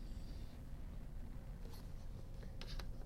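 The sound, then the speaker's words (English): A pen scratches across paper while drawing a ray diagram, giving faint, brief scraping strokes over a low steady hum. “And so I'll draw a ray that goes to that image point.”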